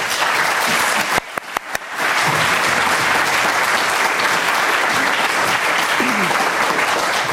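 Warm, sustained applause from an audience welcoming a presenter to the stage, a dense wash of clapping that briefly dips early on before swelling back and continuing steadily.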